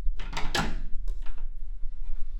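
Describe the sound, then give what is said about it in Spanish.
A door being opened, with a couple of short scraping, knocking bursts within the first second and a half, then fading to near quiet over a steady low hum. “El viento ha abierto la puerta, ¿no?”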